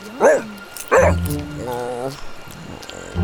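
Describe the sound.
A dog aboard a boat gives two sharp yips, then a drawn-out, high, wavering whimper that fades into quieter rustling.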